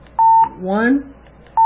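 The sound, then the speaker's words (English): Steady mid-pitched electronic beeps from a phone keypad as the menu button is pressed. One clear tone, then a brief voice, then another tone beginning at the end. “Again, you're going to press the menu button 3 times.”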